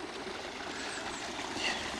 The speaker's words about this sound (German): Hier kommt der Bach unter einem Gitter wieder raus.